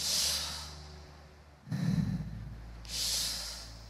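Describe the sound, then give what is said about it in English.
Deep breaths drawn in, heard as a few soft, breathy rushes of air. Hissy bursts alternate with a lower, rougher intake, each swelling and fading at low level with no talking. “Y-H is the sound when you inhale. Can you do that right now? Inhale. Take a deep breath. Isn't that the sound that's being produced?”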